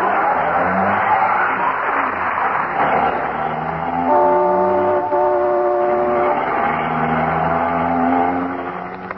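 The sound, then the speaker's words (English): A speeding car sound effect in a radio comedy, a continuous loud engine drone with shifting tonal hum throughout, easing slightly at the very end. “Isn't he driving awfully fast, dearie? I'll say he is. We just went through a stoplight.”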